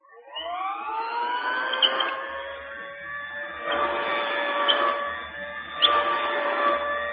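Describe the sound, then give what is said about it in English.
Old-style vacuum sweeper moving back and forth over a rug, a steady motor whine that spins up at the start and holds, with a few recurring swells in loudness. “The machine would be passing back and forth over a rug. Would sound like this.”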